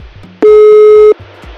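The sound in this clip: A single steady, loud ringback tone of an outgoing phone call being dialed, lasting under a second and starting and stopping abruptly over a faint rhythmic background.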